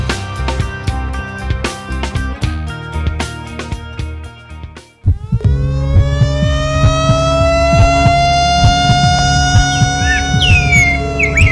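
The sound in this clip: A siren sounds in a fire-prevention campaign spot. It enters after a stretch of rhythmic music and continues loud and sustained, with steady layered tones and a slow upward glide.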